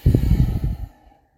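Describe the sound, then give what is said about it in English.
A person breathing during a slow, deliberate breathing exercise: one soft, low, airy breath lasts just under a second, then trails off into near silence. “I just inhaled and exhaled.”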